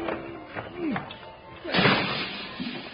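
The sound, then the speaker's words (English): A window on the side of a house is broken open: a few lighter knocks, then a sudden loud crash of breaking and scattering that trails off. “Dad, doggone it, there's your old window. Well, you didn't have to break it.”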